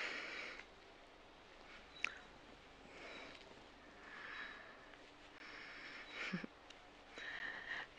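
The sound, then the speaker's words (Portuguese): Slow nasal inhalations during a guided breathing exercise, a few soft, airy breaths that swell and fade on their own with quiet gaps between them. “Ai, vais, vais respirar três vezes pelo teu nariz.”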